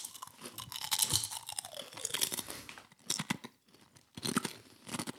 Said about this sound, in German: jetzt kommt der Geschmackstest. Also crunchy sind sie.